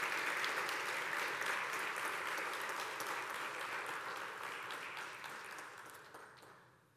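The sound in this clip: A church audience applauding to welcome a speaker: dense, sustained clapping from many hands that holds steady, then fades out at the end.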